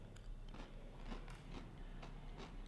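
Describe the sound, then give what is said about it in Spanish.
Crisp crunching as someone eats Fritos chile y limón corn chips: several sharp, faint bites and chews in an uneven rhythm. “Ahora, fritos chile y limón. Dale. Tiene rato. Esto sí, ni siquiera me acuerdo cómo saben.”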